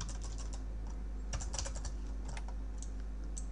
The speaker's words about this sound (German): Jetzt nehmt ihr euer Texttool und schreibt da eben den gewünschten Text rein. Ich nehme da jetzt mal Yamaha.